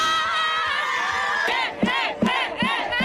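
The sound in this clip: Secondary-school students cheer and whoop as they arrive at their camp, set up in a stadium. Many voices form a sustained roar that breaks into a few rhythmic, shouted chant beats near the end.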